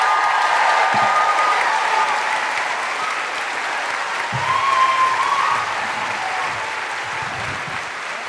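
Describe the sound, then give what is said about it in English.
A live audience in Christchurch welcomes guests with sustained applause and cheering. Dense clapping stays loud for the whole stretch, with whoops rising above it now and then. “Put your hands together and make incredible Christchurch welcoming guilty feminist woohooing noises for Fiona Given and Hannah Hudson.”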